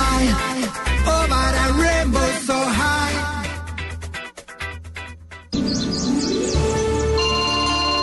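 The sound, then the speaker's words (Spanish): A smartphone ringtone sounds for an incoming call: a bright, chirpy electronic melody plays continuously and shifts to a new phrase partway through. “¿Aló, Papá Noel? ¡Mamá, me está llamando Papá Noel!”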